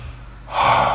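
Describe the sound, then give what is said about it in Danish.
A deep breath during a seated breathing exercise: after a half second of near quiet, a loud, rushing, airy breath begins and holds steady to the end, with no talking. “Prøv så at trække vejret rigtig godt igennem.”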